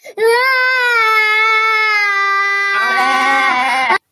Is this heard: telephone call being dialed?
no

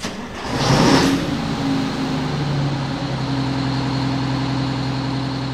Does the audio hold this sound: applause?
no

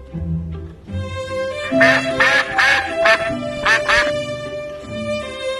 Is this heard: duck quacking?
yes

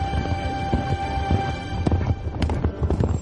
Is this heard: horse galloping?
yes

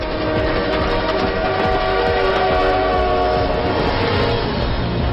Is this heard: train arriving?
yes

